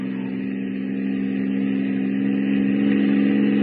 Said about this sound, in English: What is the fool doing driving on a pitch dark night like this without lights? The fool! The idiot! Driving without lights!